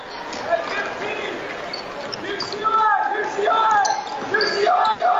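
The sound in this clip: A basketball is dribbled on a court during a boys' basketball game between Rising Sun and Switzerland County, with repeated bounces under steady crowd noise and people talking.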